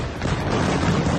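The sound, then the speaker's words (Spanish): Explosions from intense overnight aerial bombing of Beirut with heavy munitions form a loud, dense, sustained low roar of rumbling blast noise with no clearly separate bangs. “Este es el sonido de lo que ha sucedido esta noche en Beirut, el bombardeo más intenso lanzado por Israel contra el Líbano”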